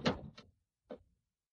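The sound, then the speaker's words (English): A door is shut and locked in an old Western bar: a faint thump with a brief scraping tail, then a single quieter click after a short pause. “Lock the door.”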